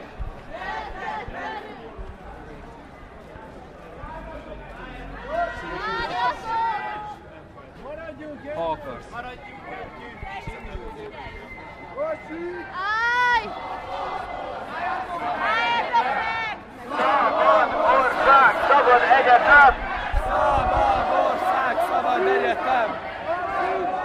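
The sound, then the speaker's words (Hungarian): Crowd of marchers slowly crossing the road onto Múzeum körút, a mass of overlapping voices and chanting over a steady murmur that grows louder toward the end. “Ferenc István utcába kanyarodik ki a tömeg a Múzeum körútra. És megy át lassan az úton.”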